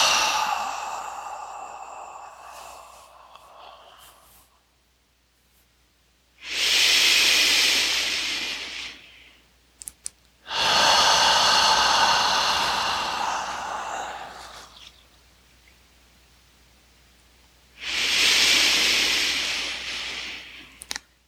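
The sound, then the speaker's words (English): Slow, deep breaths during a floor-based breathing exercise: three long, loud, hissing exhalations, each lasting a few seconds and separated by quiet pauses, with softer breathing beforehand. “We're inhaling and exhale.”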